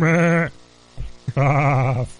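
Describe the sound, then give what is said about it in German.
A pet sheep bleats twice in long, wavering, nasal cries. A couple of brief dull knocks fall in the gap between the two calls. “Manche haben auch einen Vogel, aber ich nicht. Ich hab ein Schaf.”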